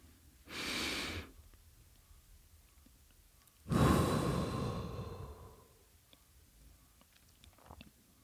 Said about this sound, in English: So we're going to breathe in for a few seconds and then we're going to release for a few seconds.